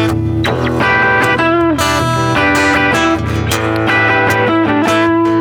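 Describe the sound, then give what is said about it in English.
A Fender Acoustasonic guitar played on its dirty electric voicing with no effects gives loud, gritty, distorted tones: a continuous run of buzzy chords and single notes with thick sustained harmonics. “it's still amazing to me that you can hit all these like dirty electric tones. Yeah, that's I mean that's no effects on it. That's all guitar right there, guys.”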